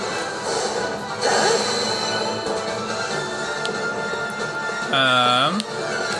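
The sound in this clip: A bomb striking an enemy in a video game: a brief crashing burst early on, then later a short tonal cry-like sound, set against a continuous busy game soundscape.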